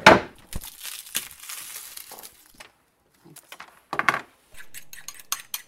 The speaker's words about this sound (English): Okay, so we will chop up some garlic here.